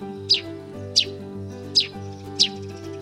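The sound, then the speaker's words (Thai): A small bird chirps four times in short, bright, high-pitched bursts, spaced a little unevenly, over a steady bed of low sustained tones. “เพื่อนของคอติคือนกตัวเล็กๆ ที่มักจะมาขี่หลังมันเป็นประจำ”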